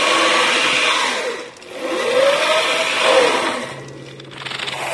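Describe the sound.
An old Army generator for powering a field radio whirs with a steady, buzzy mechanical drone that surges and sags, its pitch sweeping up and back down as it runs.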